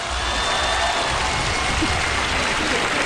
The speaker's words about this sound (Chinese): 别给我鼓掌。我唱的不行